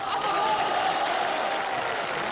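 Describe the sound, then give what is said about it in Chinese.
Audience applause at a New Year stage show, with the men in the crowd clapping warmly. The clapping is loud, dense and steady for the whole stretch, with a faint tonal line running through it. “因为我发现男同胞的掌声啊热烈。”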